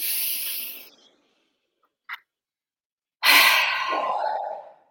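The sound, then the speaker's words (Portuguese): Deep inhaling during a breathing exercise: two long, breathy rushes of air separated by a quiet pause, with a faint short click in the gap. “Vamos experimentar, inspira. Uhum. Tenta outra vez, inspira.”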